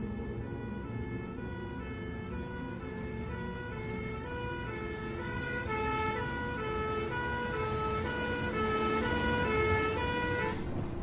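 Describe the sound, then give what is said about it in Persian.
An ambulance's wailing siren cycles through steady high tones over road traffic noise, growing slightly louder toward the end. “الان آمبولانس میرسه، دارم میان.”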